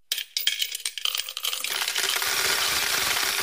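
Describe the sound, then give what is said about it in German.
Coins dropping into a piggy bank: a quick run of sharp metallic clinks and clatters that thickens into a dense, continuous jingling rush. “Was passiert eigentlich mit Ihrem Sparschwein, wenn Sie eine teure Autoversicherung haben?”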